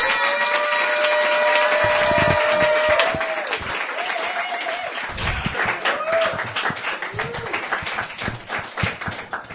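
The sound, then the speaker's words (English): An audience applauds a performer at a poetry reading: dense, rapid clapping is loudest for the first few seconds, then carries on slightly softer and uneven until the end. “Give her a hand.”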